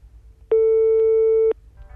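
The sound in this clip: A single steady, loud telephone line tone sounds after a long number is dialed. It holds at an even pitch for about one second over a faint low hum, then cuts off.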